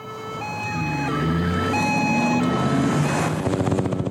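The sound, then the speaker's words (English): Patrol vehicle sirens wail in steady, piercing tones with repeated beeping over a low engine rumble. The sound stays loud throughout and grows stronger toward the end rather than fading. “So it starts with the sound of the bear patrol fading off into the distance.”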